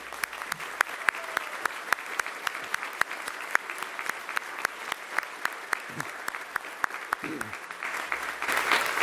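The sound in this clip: A church audience claps as guests are given a Wake Chapel welcome at a Communion Sunday service. Many distinct, sharp claps keep a fairly steady pace and swell slightly louder toward the end.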